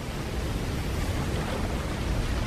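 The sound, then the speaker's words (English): Big ocean waves surging onto shore where penguins swim back to land: a loud, continuous roaring wash of surf with no distinct breaks between waves. “Penguins swimming back to land, riding the monster waves.”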